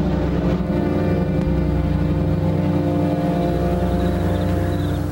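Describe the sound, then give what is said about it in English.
Low engine rumble of a car as it drives away, a steady droning hum with a constant loudness throughout. “Larson watches as they drive away.”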